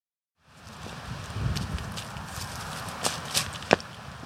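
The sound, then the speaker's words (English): Footsteps push through bramble behind a suburban shopping center in Rye Brook, New York, a soft, steady crunch and rustle of stems with a few sharper snaps toward the end. “I'm walking through Bramble behind a suburban shopping center in Rybrook, New York.”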